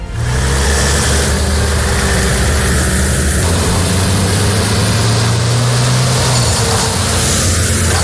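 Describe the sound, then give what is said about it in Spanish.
Military emergency unit trucks rumble with loud, steady engine noise, a deep idling drone that swells briefly as if revving, with no voices over it. “Este es el ruido de los camiones de la UME que han salido esta madrugada desde la base de Morón en Sevilla para dirigirse a Huelva”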